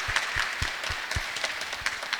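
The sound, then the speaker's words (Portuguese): Applause from people at a community gathering welcoming visitors: many crisp, separate claps at an uneven, lively pace, moderately loud, forming a short burst of clapping. “Uma salva de palmas para os nossos visitantes.”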